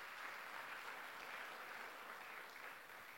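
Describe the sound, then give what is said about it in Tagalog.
A church audience applauds in praise, a steady dense clapping that holds evenly for the whole stretch. “Sige, palakpakan natin ang Panginoon, mga kapatid.”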